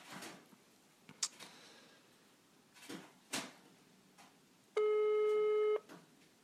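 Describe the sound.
A telephone ringing: a single steady electronic ring about a second long, set among quiet clicks, rustles and handling noises.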